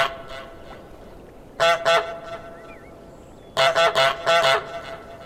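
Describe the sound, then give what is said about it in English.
Goose honks from a video game, loud and nasal: two honks, a pause, then a quick run of about five more honks over a faint steady background. “The personality of the goose isn't limited to the honk either.”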